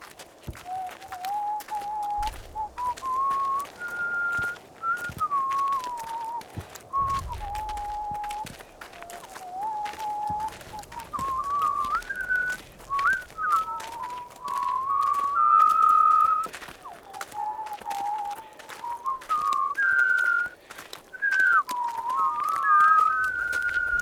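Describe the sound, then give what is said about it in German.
A soldier, ordered by a corporal, whistles a wandering tune that rises and falls in a clear, sustained tone, with only brief breaks for breath and a few faint thumps beneath. “Lassen Sie ihn doch pfeifen, Corporal. Also, hast du gehört? Pfeif!”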